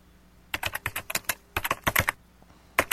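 Fast typing on a computer keyboard, with sharp clicking keystrokes coming in three quick bursts separated by brief pauses.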